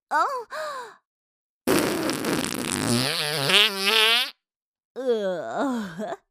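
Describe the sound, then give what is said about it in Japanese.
A drawn-out fart from a nun lasts about two and a half seconds, rough and rumbling, then turns tonal with a rising pitch. Short breathy groaning vocal sounds come just before and after it. “経験なシスターたるこの私がおならこいてしまいましたわ。”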